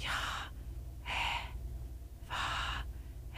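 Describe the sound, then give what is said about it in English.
A voice imitates a deep last breath: several breathy gasping inhalations repeated at a slow, fairly even pace, each a short airy rush separated by quiet pauses. “And then when we pass, that is actually the sound we make when we make our last breath.”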